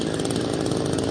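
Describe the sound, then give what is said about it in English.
A chainsaw cutting a tunnel through the rubble of a collapsed high-rise apartment building after an earthquake gives a steady, buzzing engine drone, moderately loud and unbroken, with no voices. “Now, that's the sound of rescue workers using a chainsaw to cut a tunnel through the remains of this high-rise apartment building that collapsed.”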